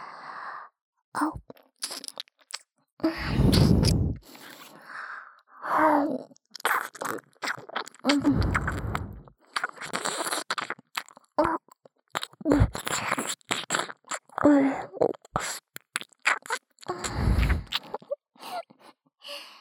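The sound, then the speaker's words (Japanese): Wet tongue and mouth sounds, with many soft clicks, smacks and squishy licking noises in irregular bursts, separated by brief quiet gaps. “私の舌の音、よく聞こえますか？”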